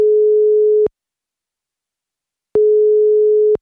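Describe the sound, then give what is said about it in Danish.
A telephone ringback tone plays while a call to someone is being placed: a steady, low, even beep held about a second, a long silent pause, then a second identical beep. No voices are heard. “Lad os lige ringe Ulla op og høre, hvordan det er gået siden.”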